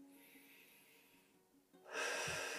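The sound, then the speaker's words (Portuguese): A person takes a deep inhale during a guided breathing exercise: a soft hiss gives way to a loud, rushing breath that swells suddenly and holds strong until the end. “Nós vamos fazer três respirações, tá? Então você vai inspirar”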